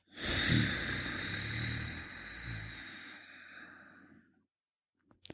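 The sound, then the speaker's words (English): Slow breath exhaled through the nose with the back of the throat contracted: one long, steady, hissing rush of air that fades out, followed by a couple of faint small sounds. “And exhale slowly through the nose while keeping that throat contracted.”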